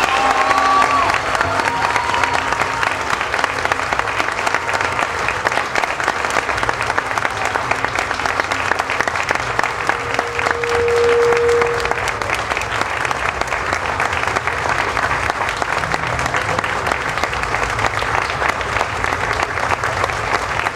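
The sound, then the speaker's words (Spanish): Audience applause after a speech of thanks, a dense, steady clapping that holds at an even, loud level for about twenty seconds without a break. “Un aplauso, por favor.”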